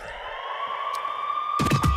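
A siren-like tone in a played pop song holds one steady, sustained pitch, then thumping beat hits come in near the end.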